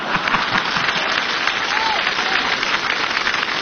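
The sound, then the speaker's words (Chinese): Audience applause at a live comedy show, dense and steady clapping that holds at an even, loud level throughout, with no speech over it. “来，我们掌声鼓励他往下说呀”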